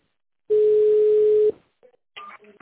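A single steady, loud telephone tone lasting about one second on a company's automated phone line, followed by a few brief, fainter tonal blips.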